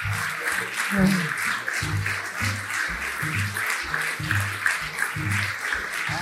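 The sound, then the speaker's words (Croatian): Audience applause breaks out at an advertising awards ceremony as an agency is called up for a prize. The clapping stays dense and steady for the whole stretch, with some low sounds running beneath it. “Evo, najveći aplauz ste već dobili.”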